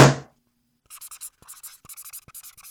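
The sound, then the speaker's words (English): Marker strokes squeak across a whiteboard as a short note is written, several brisk, scratchy strokes in uneven bursts with brief pauses and soft taps between them, following a short burst of noise at the start. “Don't even bother writing it, drama queen.”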